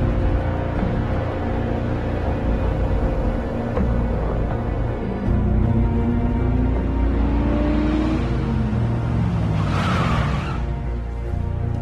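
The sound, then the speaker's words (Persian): Tires of an old, battered car squeal over a steady, rumbling engine drone, with a harsher burst of noise near the end and no voices. “لاستیکای ماشین قراصت چرا اینقدر صدا میده؟”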